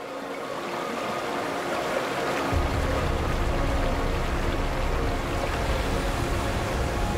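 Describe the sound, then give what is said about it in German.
A meltwater stream from melting snow flows in a steady watery rush that turns suddenly fuller and deeper partway through, then carries on evenly with no voices. “Was als Rinnsal anfängt, schwillt immer weiter an zu einem breiten Strom,”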